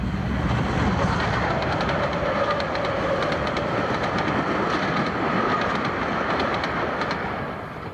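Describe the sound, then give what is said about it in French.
A huge freight train passes noisily along the track in a loud, continuous roar with rapid clickety-clack from the wheels, easing slightly at the end. “C'est un énorme train de marchandises qui fait un vacarme épouvantable.”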